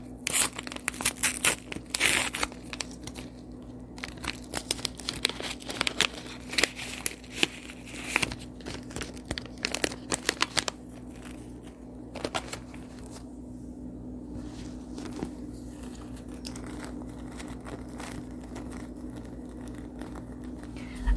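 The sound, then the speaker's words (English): Tearing and crinkling as a packet of tea bags is opened, with sharp bursts of wrapper rustle over roughly the first half. Quieter, sparse crackles follow, and a faint steady low hum sits underneath throughout. “Let's open up a packet here.”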